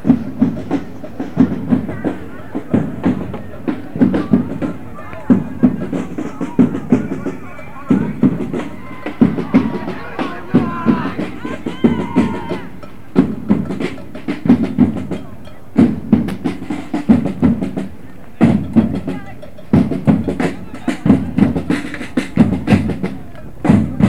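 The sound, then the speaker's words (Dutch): A marching drum band approaches in a protest parade, beating a steady, loud, regular rhythm throughout, with people talking in the background. “Nou, de drumband komt eraan.”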